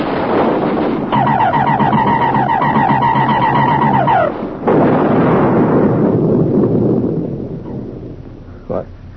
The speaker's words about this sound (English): All batteries, repeat fire!